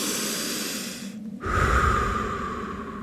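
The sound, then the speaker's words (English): A simple calming breath, in then out, taken as a moment to relax; a sudden noisy rush of air, louder in the low range, sets in partway through and carries on, over a steady background sound. “That might just be a simple inhale, exhale.”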